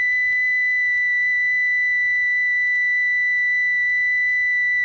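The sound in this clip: A steady pure test tone announced as one million cycles, a single constant high whistle-like pitch holding unchanged throughout, alone with no talk.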